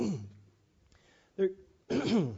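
Throat clearing and coughing from a reader who has just taken a cough drop: a short, sharp cough burst, then a longer, rough, voiced rasp, both quiet and alone.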